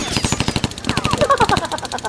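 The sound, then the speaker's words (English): Rapid machine-gun fire is returned during an enemy attack pass, with loud, evenly spaced bursts hammering out in a fast, steady rhythm throughout. “Oh, quit blathering and shoot already. I like shooting. They're coming by for another pass. Return fire.”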